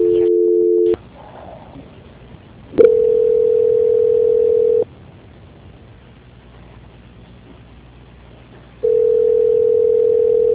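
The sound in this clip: Telephone ringback tone during a call transfer: a steady, narrowband electronic tone sounds in three long stretches separated by quiet gaps, with a sharp click where the second one starts.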